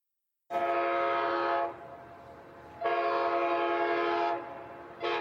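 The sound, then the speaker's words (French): A train whistle sounds as a train arrives at dawn: two long, loud, steady blasts with a rich harmonic tone, separated by a short gap, then a third blast begins at the end. “À peine les premiers rayons de l'aube éclairent le ciel, un long sifflement annonce l'arrivée de mon train.”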